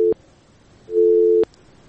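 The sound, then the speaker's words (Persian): A telephone busy tone sounds after a dropped call. The tail of one beep ends at the start, then a pause, then a second steady, mid-pitched beep lasting about half a second, clean and alone. “بله تماس از اینام قطع است، چیز مشکلات تکنیکی وجود داره”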